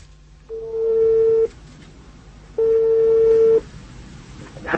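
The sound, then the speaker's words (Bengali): Line tones as a phone call is placed: two long, even tones separated by a gap, over faint background noise. “এরপর আমরা আরেকটা মেয়ের কাছে phone দিই”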